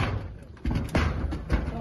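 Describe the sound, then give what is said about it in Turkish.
Special operations police break a door with a battering ram: a few heavy, dull thuds strike at intervals under narration. “Onlar kapıyı koçbaşıyla kırıp içeri girdi.”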